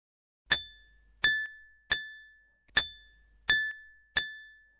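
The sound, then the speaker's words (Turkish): A metal spoon strikes an empty glass cup six times at an uneven pace. Each strike is a bright, high clink that rings briefly and then fades, with silence between the strikes. “Annesinin verdiği sütü yeni bitirmiş, bardağının içindeki kaşıkla oynamaya başlamıştı. Kaşık cam bardağa çarparken çıkan sese kulak verdi.”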